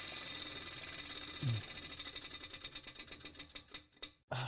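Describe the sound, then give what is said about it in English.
A spinning prize wheel clicks rapidly in a steady stream of sharp ticks. The ticks slow gradually, spreading farther apart as the wheel winds down near the end. “Spin that wheel one more time.”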